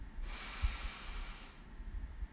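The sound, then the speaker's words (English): A single deep breath drawn in during a guided breathing exercise: one long, airy inhale that holds steady for just over a second before cutting off, over a low, soft rumble. “Let's take a deep breath in, breathe in,”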